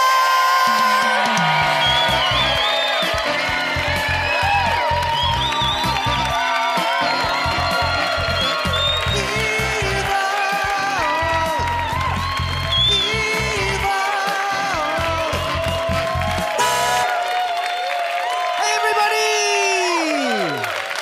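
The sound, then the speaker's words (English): A live audience cheers, whoops and applauds to welcome three hosts onstage at a live show. The crowd roar is dense and loud, holds steady throughout, and has shouted voices mixed in. “please, please welcome with a huge, long-ass round of applause the hosts of Evil Men, the fabulous James Hartnett, Chris Locke, and Michael Balazza!”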